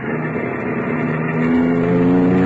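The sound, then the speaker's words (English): A car engine runs in a steady, dense drone as the car drives off, swelling louder about halfway through and holding there to the end. “so I got back into the car and drove on”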